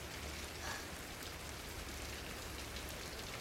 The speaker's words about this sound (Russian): По подоконнику стучит дождь.